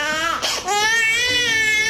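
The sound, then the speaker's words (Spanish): A baby crying in a loud, sustained high wail, one long continuous cry with a brief catch near the start, heard on its own. “Don't cry. Don't cry, hey. Don't cry. No llores.”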